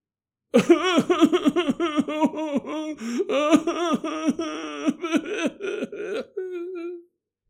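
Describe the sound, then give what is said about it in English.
A woman in a group therapy session sobs loudly, overcome with grief, in rapid, choking, voiced bursts that end in a drawn-out, wavering wail. “begins to sob loudly, overcome with grief, is what it looks like.”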